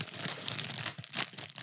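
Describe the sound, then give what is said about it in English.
Crinkling plastic of a pretzel bag being opened, a steady crackly rustle with a few sharper crunchy bursts, heard alone for under two seconds. “Don't crush my pretzels. Open it. Yay, pretzels.”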